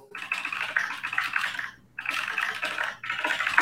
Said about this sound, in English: You type fast, man. You just wrote a book.